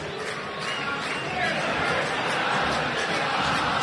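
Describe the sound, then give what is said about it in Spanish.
Racing football fans sing in the stadium, a dense, steady roar of many voices chanting together throughout, with a commentator talking over it. “La gente empezó a cantar. Escuchá, escuchá lo que canta la gente de Racing.”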